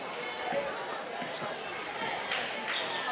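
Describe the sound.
A basketball is dribbled on the court during a Holly Pond versus Vinemont girls' high school game: a few soft thuds under steady crowd murmur and a commentator's voice.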